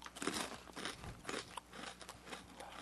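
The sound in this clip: Repeated crisp crunching as someone bites into and chews a crunchy rice cracker, with many irregular bursts of loud crackle throughout.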